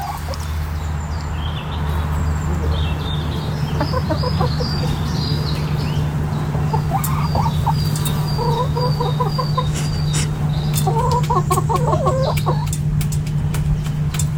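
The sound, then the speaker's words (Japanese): Chickens clucking in England. Many short, scratchy clucks and calls come in irregular bursts over a steady low background hum that runs throughout. “イギリスで出会ったニワトリちゃんです。”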